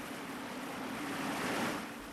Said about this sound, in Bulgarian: Стигнахме най-после. Ето го водопада.